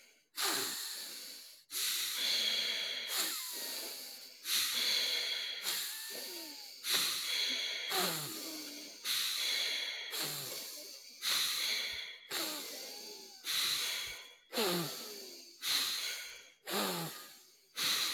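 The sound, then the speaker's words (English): Breathing in and out through the nose during a guided breathing exercise: many strong, hissing breaths in a fast, regular rhythm, each starting abruptly and fading, loud and alone. “In through the nose, out through the nose. In through the nose, out through the nose.”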